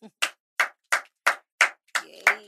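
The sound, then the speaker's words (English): Hands clap to welcome a guest onto a talk show set, a steady run of sharp, evenly spaced claps that ring out cleanly against silence. “Please put your hands together for Iniedo.”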